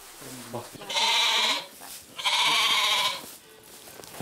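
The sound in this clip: Two loud, drawn-out bleats from a billy goat being put into a stall, each lasting about half a second or more with a harsh, buzzing tone and a pause between them, with a little talk at the start.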